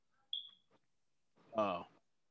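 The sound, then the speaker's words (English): A phone gives a single short, thin, high-pitched electronic beep, followed moments later by a man speaking. “Nah, my phone's beeping. I gotta get my charger.”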